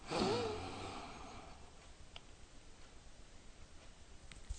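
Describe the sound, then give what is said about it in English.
A single deep, airy inhale during a guided relaxation exercise swells at the start and fades within about a second and a half. Near-silence follows, broken only by faint ticks. “So let's go ahead and close our eyes. We're going to start by taking a deep breath in one.”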